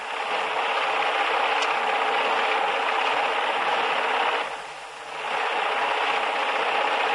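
A sewing machine stitching cloth runs as a steady, busy mechanical whir with a fine, rapid rattle. It eases briefly about two-thirds of the way through, then picks up again, and no one speaks.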